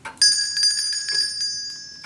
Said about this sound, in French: Arrête un peu de sonner la clochette